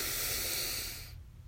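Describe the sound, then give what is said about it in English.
A deep breath drawn in during a guided breathing exercise: a steady, airy rush of air that holds for about a second, then drops away into near silence. “So let's breathe in together. And release. Breathe in.”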